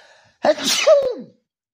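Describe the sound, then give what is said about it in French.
A single loud human sneeze, with a sharp intake rising into an explosive burst that lasts under a second. Silence comes before and after it. “Je vais éternuer.”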